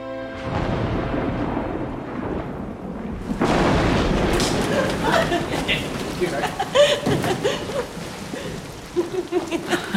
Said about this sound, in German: Ohne dass ein Tropfenfall vorhergegangen wäre, ist der Regen herniedergebrochen.